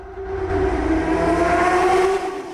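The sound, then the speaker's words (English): A motorbike speeds through a tunnel, its engine giving a sustained roar with a steady whining tone. The sound builds in at the start and fades away at the end. “A motorbike speeds through a tunnel.”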